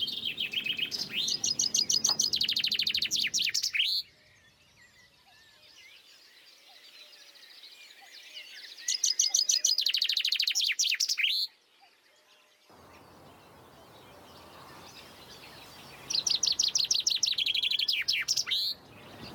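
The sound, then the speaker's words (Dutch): A common chaffinch sings three bright, rapid, descending song phrases, each a few seconds long and ending in a flourish, separated by long, quiet pauses. “In onze cursus Vogelzang zijn we aangekomen bij De Vink.”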